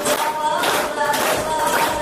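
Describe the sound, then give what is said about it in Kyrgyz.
A hall audience claps along to a local young woman's tremulous song that closes a film screening. Dense, steady clapping runs throughout, with sustained sung notes audible through it. “Тасманын соңу Жергеталдык аруу кыздын ушундай дирилдеген ыры менен аяктады. Аны залдагы көрүүчүлөр ушинтип кол чаап коштоп турушту.”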